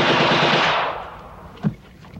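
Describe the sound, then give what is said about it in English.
A rapid burst of machine-gun fire as a hidden guard pumps bullets into a man in a film scene. The loud, sustained rattle fades after about a second, then a single sharp shot rings out, followed by a fainter one. “When Bopper stands, a hidden guard pumps bullets into his chest.”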